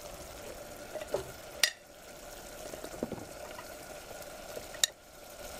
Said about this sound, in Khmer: ដូច្នេះយើងអាចបង់បន្លែចូលបន្តបន្តអ្នកខ្ញុំដាក់បន្លែរឹងមុន